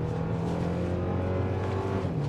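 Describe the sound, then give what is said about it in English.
A turbocharged car accelerates in sport mode, its engine a steady, fairly quiet low drone with no talk over it. “let me accelerate first before I finish my thought. There it goes. You can even hear a little bit of turbo whine.”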